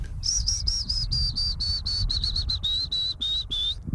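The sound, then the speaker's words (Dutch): Willow warbler song: many short, clear whistled notes in a steady rhythm, slowly sinking in pitch over a faint low rumble. “En dit is het geluid van de Fytis.”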